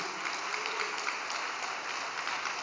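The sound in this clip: Audience applause forms a steady, dense wash of clapping hands that holds evenly throughout at a fairly low level.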